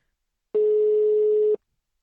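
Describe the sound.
A ringback tone from an outgoing phone call: a single steady mid-pitched beep lasting about a second, loud and alone, with silence before and after it.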